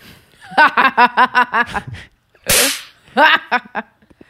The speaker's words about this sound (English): I think that's a whip, actually. Some of them sounded like that.